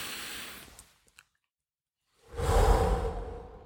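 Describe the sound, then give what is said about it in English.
Deep breathing, with one airy breath tapering off, then a short silence, then a louder, longer rushing breath, heard alone without speech. “I take a really deep breath.”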